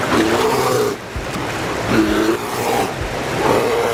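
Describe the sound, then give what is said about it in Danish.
Big male bears fight over the best salmon fishing spots in a river. Three rumbling growls and roars rise over a steady rush of water. “These bears are really hungry. They haven't tasted salmon for 10 months, and the big males battle for the best fishing spots.”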